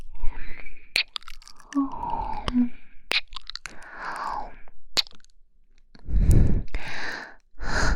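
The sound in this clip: Chewing of soft food: wet, smacking mouth sounds and small clicks come in loose bursts, with a few louder breathy gusts toward the end, and no talk.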